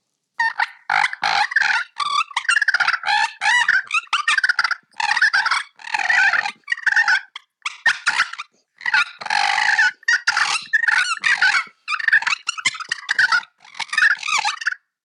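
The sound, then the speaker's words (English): A hand-operated turkey call imitates two wild gobblers fighting, with high-pitched, rapid, raspy cackling and purring. Many dense bursts are split by short pauses. It is loud throughout and no one talks. “So that would be... like two birds are kind of fighting.”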